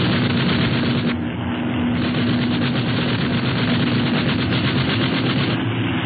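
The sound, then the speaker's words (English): Rapid gunfire rattles in dense bursts over a constant engine drone during an exchange of fire between vessels. The sound is loud and unbroken throughout, with no voices. “Okay, start shooting.”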